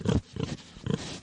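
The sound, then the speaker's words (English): Farm animals calling, three short, low, throaty grunting bursts with brief gaps between them. “The sounds of animals on a farm.”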